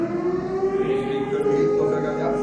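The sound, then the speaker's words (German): A civil defense siren for a whole district sounds a steady, sustained wail that holds a constant pitch, loud and unbroken for the full length. “Wir haben hier die Sirene für den ganzen Landkreis. Also wenn irgendwo was brennt, dann geht hier die Sirene los.”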